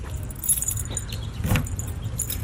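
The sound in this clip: Keys jangle brightly as someone gets into a car to drive, a short metallic rattle over a low steady vehicle rumble, with no talking.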